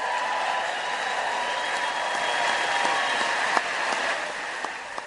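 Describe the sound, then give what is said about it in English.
Applause and cheering from members of Congress rising to their feet during a speech, a steady, fairly faint wash of clapping that holds throughout with a few sharper claps. “I mean, obviously, when they got up and they cheered, Pelosi's face was furious.”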